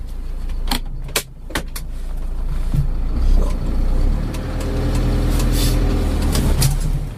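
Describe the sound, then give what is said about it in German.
A community bus drives along a road toward Glashütte, giving a steady engine and road rumble that builds slightly midway, with a few sharp clicks and rattles near the start. “Also, jetzt fahren wir erstmal hier in eine Richtung, die auch in eurem Podcast drin vorkam, nämlich in Richtung Glashütte.”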